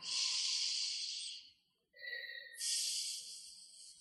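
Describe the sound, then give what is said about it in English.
Deep breathing during a guided affirmation meditation: a long, soft, airy breath, a brief pause, then another drawn-out breath, both faint and with no talking. “And take a deep breath.”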